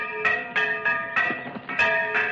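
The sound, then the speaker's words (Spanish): A church bell is rung as an alarm in a village, its bright metallic tone struck again and again in a quick, slightly uneven rhythm, each ringing strike overlapping the last. “Alguien hace sonar la campana de la iglesia. Los campesinos salen de sus casas y en un momento la esplanada central se llena de hombres.”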